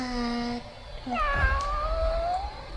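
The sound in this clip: A single drawn-out cat meow, sent in by a young girl, bends in pitch over about a second and a half, clear and fairly loud against a steady low background hum.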